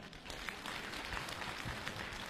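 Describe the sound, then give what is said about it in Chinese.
An audience at a comedy crosstalk show applauds with faint, dense clapping that holds at an even level throughout. “大家，鼓掌再热烈一点好不好？”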